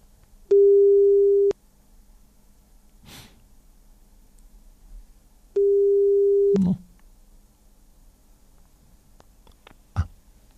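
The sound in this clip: A telephone ringback tone sounds while a call goes out: two steady, mid-pitched electronic tones, each about a second long and about five seconds apart. Soft breathing and small rustles fill the quiet gaps.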